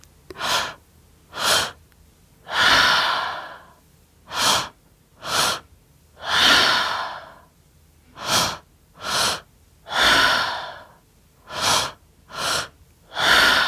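Guided rhythmic breathing exercise: many loud, breathy inhales and exhales in a steady pattern, mixing quick short breaths with longer drawn ones, separated by brief pauses, with no talking.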